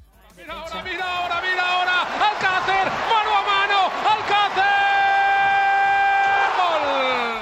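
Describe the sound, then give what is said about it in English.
A stadium crowd celebrates a La Liga goal: a loud, sustained roar layered with blaring horn-like tones that shift and overlap throughout, easing slightly at the very end. “That was the sound of Paco Alcacer scoring a La Liga goal, and it was from this very weekend.”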